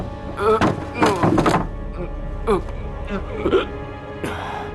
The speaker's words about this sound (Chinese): 那是窗户没开， 快去打开。 是，打开。